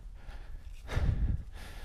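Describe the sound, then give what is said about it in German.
Heavy panting from a person catching their breath after a steep climb through a forest at night: one loud, rough breath burst in the middle, with quieter breathing before and after. “Oh, ich schnaufe, weil es gerade echt steil war.”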